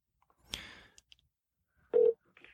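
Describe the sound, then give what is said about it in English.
A phone call being placed with the green button: a soft click is followed by one short, steady electronic beep, with near silence around them. “Now call. It's supposed to be calling. Call. Hit the green button”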